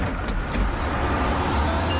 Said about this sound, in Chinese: 车辆起步，请站稳。